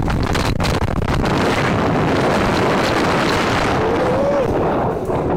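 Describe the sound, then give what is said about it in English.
Strong storm wind at two in the morning, a loud continuous roar with rough buffeting against the microphone, unbroken for the whole stretch. “2 o'clock in the morning. And it is storming wind. And all this here done blew up. Man, I hope this wind don't blow me off.”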